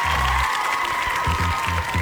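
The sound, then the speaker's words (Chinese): Applause thanking a team of young players for their hard work. The clapping is steady and fairly loud, with a continuous crackling texture. “给他们来鼓鼓掌，感谢他们的辛苦付出啊。”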